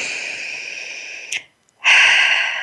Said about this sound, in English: So breathe that in.